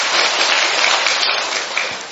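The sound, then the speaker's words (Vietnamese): A Catholic audience gives a round of applause for the catechumens, a loud, dense and continuous roar of clapping that eases slightly toward the end. “Một tràng pháo tay để chúng ta chúc mừng những anh chị em dự tòng ấy, thưa anh chị em.”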